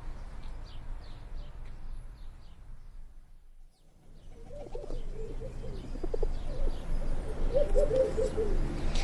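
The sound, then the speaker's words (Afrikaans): A turtle dove coos at its nest, soft repeated low coos that fade in after a brief quiet and grow fuller through the second half. “Ja, het lyk of hy tortelduif tevrede is met haar nes.”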